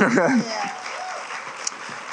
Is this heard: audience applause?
yes

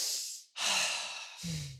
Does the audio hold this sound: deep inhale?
yes

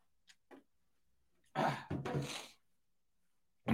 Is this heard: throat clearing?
yes

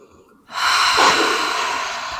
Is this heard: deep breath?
yes

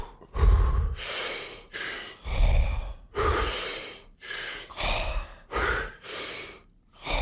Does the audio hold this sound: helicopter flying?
no

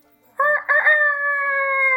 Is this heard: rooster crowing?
yes

